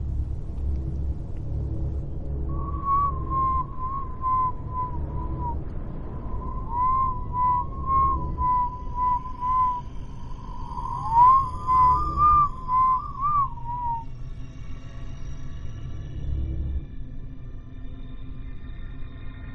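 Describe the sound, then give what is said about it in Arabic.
Whistling in a dark haunted house: a clear, wavering whistled tune that holds for several seconds, pauses, then carries on with small trills over a constant low rumble, before fading out. “وصوت الصفير في العادي يعني حاجة متخوفش، ولكن تخيل معايا انت واقف ضلمة في بيت عارف انه مسكون ولوحدك والدنيا كحل وحد بيصفر لك.”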